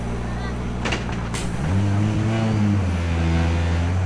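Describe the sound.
A rally car pulls away from a time control right after gear is engaged. A few sharp mechanical clicks come first, then a loud, droning engine note with strong harmonics whose pitch steps upward as the car accelerates.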